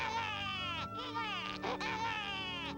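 A cartoon baby left in a basket cries, voiced by a performer: several wavering, bleat-like wails with brief breaks between them.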